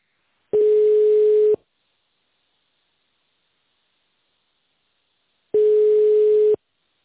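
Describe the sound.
Telephone ringback tone heard while a call is being transferred: two steady, single-pitched beeps, each about a second long, separated by a long silence, with no voices.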